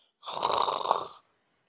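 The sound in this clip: A human voice imitates snoring with a single drawn-out, raspy snore lasting about a second, heard alone.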